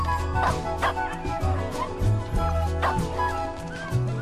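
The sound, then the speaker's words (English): Puppies yipping and barking as they play together in a glass pen in a pet store, quick high-pitched yips and small barks scattered over steady background music. “As a puppy, Duke looks out of a glass pen in a pet store. He plays with other puppies.”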